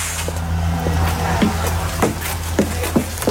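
Ride inside an electric trolleybus travelling in Arnhem between Oosterbeek and Velp. A steady low hum and rumble runs throughout, with scattered light knocks and rattles on top.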